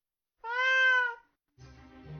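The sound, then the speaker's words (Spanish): A cat meows once, a clear, steady-pitched and fairly loud call, then after a short pause gives a rougher, lower-pitched sound. “Miro a mi gato negro. Está fijando sus ojos grises en mí.”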